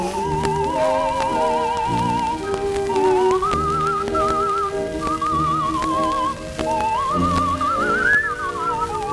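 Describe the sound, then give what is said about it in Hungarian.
Theremin music plays from a vinyl record: a loud, continuous lead melody with strong vibrato slides and swoops in pitch over steady instrumental accompaniment, filling the whole passage without pause. “teremin, vagy ez fütyülés? Ez teremin.”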